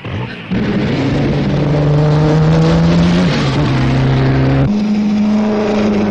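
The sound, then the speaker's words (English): A 12-cylinder Delage racing car with twin superchargers roars through a sustained, loud engine drone, its strong harmonic tone holding steady while shifting abruptly in pitch a few times. “France has produced a yet more powerful car, the 12-cylinder Delage with its twin superchargers.”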